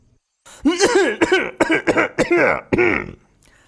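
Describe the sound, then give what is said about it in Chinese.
Performed coughing in a dramatized audio story: a rapid run of many short, forced, throaty coughs with a voiced, tonal edge, fairly loud and close together, with no other sounds. “继续咳嗽”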